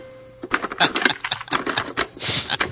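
A cassette tape is flipped over by hand and its play button pressed, giving a quick run of sharp plastic clicks and rattles of varying loudness, with a brief scuffing rush near the end.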